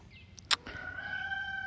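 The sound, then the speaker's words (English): A rooster crows in a field, a faint, drawn-out call held at a steady pitch after a brief sharp click. “the rooster crows”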